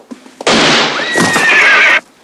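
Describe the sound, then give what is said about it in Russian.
Loud, strained whinny of a horse shot during a desert gunfight as it falls, lasting about a second and a half and wavering in pitch, preceded by a few faint short knocks. “Абдулла стреляет. Убитый конь падает, придавив ногу Саида.”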